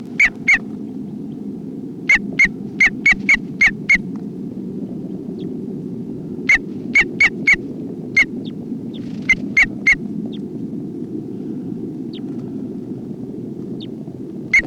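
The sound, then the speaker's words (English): Alarm calls from a bird: many short, sharp chip notes fired in quick clusters separated by pauses, loud and crisp over a steady low background hum. “Alarm calls of bird 304.”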